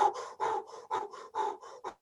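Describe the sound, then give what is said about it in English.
Forceful rhythmic breathing with deliberately forced inhales and exhales, a quick regular series of breathy bursts separated by brief gaps, with no talk over it. “You can increase certain things about it, like the forcefulness of the inhale and the forcefulness of the exhale is holotropic breathing.”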